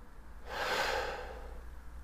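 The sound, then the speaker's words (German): One deep inhalation during a prayer breathing exercise: a soft, airy hiss that swells over about a second and then fades, quiet and alone with no talk. “Zum Beispiel einatmen.”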